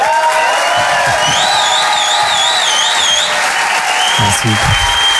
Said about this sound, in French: Je vous demande de faire un maximum de bruit. Une ovation, s'il vous plaît, pour Selig.